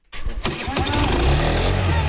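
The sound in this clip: A moped engine starts with a brief sputtering crank, then catches and settles into a steady, buzzing idle that continues to the end.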